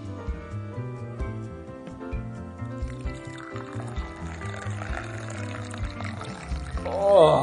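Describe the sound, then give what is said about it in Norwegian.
Coffee poured from an old-fashioned white coffee pot with a red top into a cup, a soft continuous trickle of liquid with a melodic tune playing underneath. “lyden av en sånn gammeldags, du vet, de der kvite kannene med sånn rød toppen, som heller kaffe. Koffebattler, tror jeg. Ja, koffebattler heter han. Oppi en kopp.”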